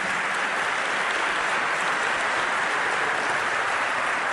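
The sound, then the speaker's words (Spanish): A church audience applauds during a Spanish-language worship service, giving steady, dense, loud clapping that neither pauses nor fades from start to finish. “Denme un aplauso fuerte al Señor en esta noche.”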